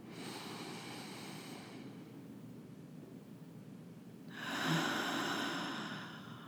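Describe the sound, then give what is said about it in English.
Slow breathing during a breath-awareness exercise: a soft, airy breath fades away in the first two seconds. After a quiet pause, a fuller breath swells and then tapers off near the end. No one speaks. “going to allow myself to take an inhale at my pace and rhythm and softly exhale one more time for myself.”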